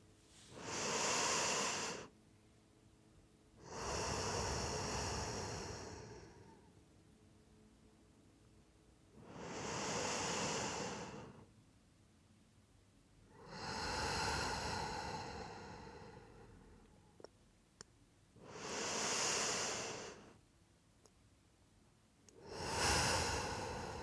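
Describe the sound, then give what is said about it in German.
Deep, slow breathing during a guided relaxation: six long, loud breath sounds, alternating inhales and exhales, evenly spaced with short quiet pauses between them, and no talking. “Und jetzt nimm nochmal 3 tiefe Atemzüge.”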